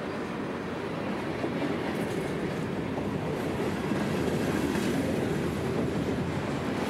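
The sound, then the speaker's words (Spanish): A long passing train rolls by in a steady, dense rumble, with rhythmic clickety-clack of wheels over the rails running unbroken throughout. “Parece que es un tren infinito, como es infinita la esperanza.”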